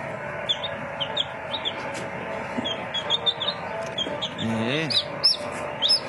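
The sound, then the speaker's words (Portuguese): Many high, short peeps from chicks raised on a farm scatter steadily over a dense, continuous background din, with a brief voice-like sound partway through. “olha os pintinhos que fazem parte aqui da criação, né?”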